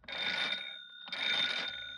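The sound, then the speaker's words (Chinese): A telephone rings in two long trilling bursts with a short gap between them. The bright, buzzing bell tone is moderately loud and plays alone, with no talk. “急于消灭起义军的蒋介石通过电话直接向前大军下达作战命令”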